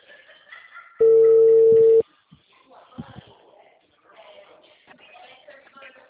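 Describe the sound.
A telephone ringing tone sounds on the line as a call to a bank's payroll-loan agent connects: one steady, even-pitched tone lasting about a second, followed by faint, indistinct voices.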